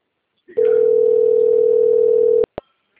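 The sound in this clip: A telephone ringing tone sounds while a call is placed: one loud, steady, single-pitched tone lasting about two seconds, then two sharp clicks as it cuts off.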